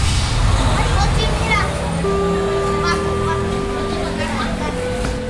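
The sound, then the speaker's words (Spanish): Bustling street ambience in the heart of Tlaxcalancingo village on the Puebla-Atlixco federal highway: a dense, loud wash of traffic and crowd noise with children's voices, and a sustained whistle-like tone partway through. “Este bullicio puede confundirse con el ambiente de una ciudad, pero no es así. Estamos en el corazón del pueblo de Tlaxcalancingo, sobre la carretera federal Puebla-Atlixco.”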